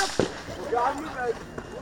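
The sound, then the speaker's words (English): Gunshots fired by a shooter at an approaching civilian: a sharp crack near the start and a fainter one later, under a speaking voice. “the shooter immediately fires at him”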